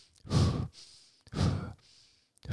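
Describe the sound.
Deep breaths taken one after another: two full, breathy rushes of air separated by short, quieter pauses, with a third just beginning at the end and no speech.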